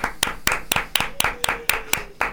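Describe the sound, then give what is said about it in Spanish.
Hand clapping, about nine sharp, evenly spaced claps at a steady, moderate pace. The claps are loud and heard alone, with no talk over them. “Lo aplaudimos.”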